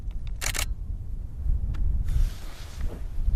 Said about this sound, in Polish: Musimy dobrze ustabilizować aparat, bo bardzo mocno wieje.